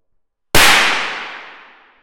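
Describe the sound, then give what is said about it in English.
A single sharp bang as a thin wire explodes from a sudden 4 kV capacitor discharge, striking abruptly after a short silence and then fading away in a long, smooth decay. “The thereby flowing current is strong enough to cause the wire to explode.”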